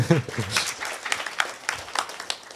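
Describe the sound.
Brief speech at the start, then scattered, uneven hand claps for a colleague, quieter and sparser than a full ovation.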